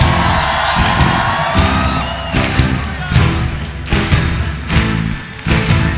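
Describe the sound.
An audience shouts and cheers during an evening worship service, loud crowd noise rising in repeated surges of whoops and yells, with a few sharp bursts standing out.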